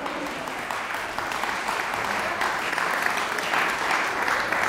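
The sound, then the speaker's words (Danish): A concert audience applauds ahead of a performance, with steady, dense clapping that swells slightly as it continues. “Nu er det ikke mig, der skal spille. I må vente lidt med applauserne.”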